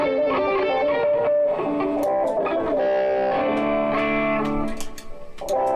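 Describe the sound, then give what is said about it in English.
Electric guitar played through a distortion effect, with sustained gritty notes and chords ringing continuously and loudly, alone with no voices. “By the way, I haven't been doing this with distorted guitar, but I have got some distortion on this.”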